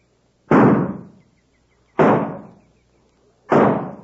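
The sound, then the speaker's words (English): Three sharp gunshots fired from up in a grove, evenly spaced about one and a half seconds apart, each a loud crack with a short decaying tail, followed by quiet. “His shots come from up there in the grove.”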